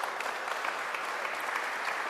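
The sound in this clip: Sustained audience applause at a business school presentation after news of a ranking. Many hands clap in a dense, even patter that holds at a steady, moderate level throughout.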